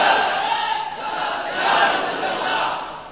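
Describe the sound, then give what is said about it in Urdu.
At an Islamic gathering, a crowd chants a religious twelve-months slogan for Madani caravans. Many voices roar together in a dense mass that swells and eases in a few waves. “یہ 12 ماہ کا نعرہ لگا رہے ہیں”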